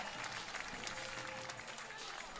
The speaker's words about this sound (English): Rousing applause for Mullins as he digs into the batter's box.